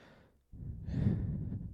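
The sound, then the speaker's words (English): One deep breath: after a quiet moment comes a loud, drawn-out rush of breath, like a heavy sigh, heard on its own with no speech. “Deep breath there for you guys.”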